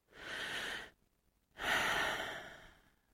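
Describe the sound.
Two slow, airy inhalations, the first about a second long and the second longer, each rising and fading softly with a short silence between them.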